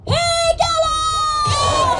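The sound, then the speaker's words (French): Tibetan emigrants gathered before the Capitol shout the rallying cry for a free Tibet, one loud, drawn-out, high-pitched call held for about two seconds with other voices behind it. “Ce que vous venez d'entendre, c'est le cri de ralliement pour un Tibet libre.”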